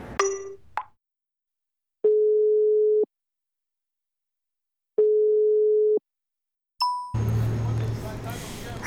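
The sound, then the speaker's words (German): Ringback tone of an unanswered telephone call: after a brief click, two steady mid-pitched tones of about one second each sound with long silent gaps between them. A short beep follows, then background noise and a voice speaking. “Okay, du gehst wieder nicht ran.”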